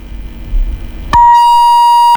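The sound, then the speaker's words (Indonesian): A phone call drops with a click, then a single steady electronic beep sounds, a clean high tone lasting about a second over faint low line noise. “sepertinya terputus ya Bu ya, mungkin nanti kita akan coba hubungi kembali”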